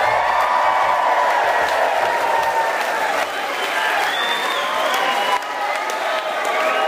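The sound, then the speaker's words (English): A live studio audience at Rhodes College in Memphis, Tennessee applauds and cheers. The clapping is loud and continuous, with scattered whoops rising above it, and it dips slightly twice before picking back up. “We are at Rhodes College in front of this live studio audience. Let's hear it!”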